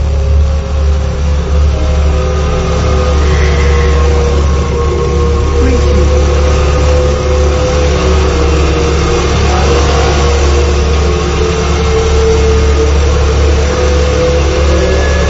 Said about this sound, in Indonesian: Aku lantas menyalakan motor dan langsung tancap gas